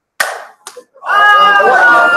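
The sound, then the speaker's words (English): A single sharp hand slap from a Top Gun style high five cracks out alone, followed by a couple of softer knocks and then a sustained voice. “I haven't had a chance to give anybody a top gun high five. Would you do a top gun? Top gun? All right. We'll give it a shot.”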